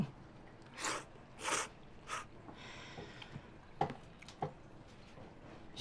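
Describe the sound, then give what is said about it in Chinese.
Someone bites into kimchi and chews it: three crisp crunches come first, then softer, scattered chewing clicks. The sounds are faint and there is no talk. “再来两口泡菜，这才有味儿。”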